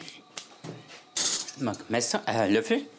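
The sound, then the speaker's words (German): Spoon clinking against dishes while onions are filled with stuffing; a few light metallic clinks, then louder rustling kitchen handling sounds with a murmuring voice over them. “Löffel und dann füllen wir die Zwiebel jetzt einfach.”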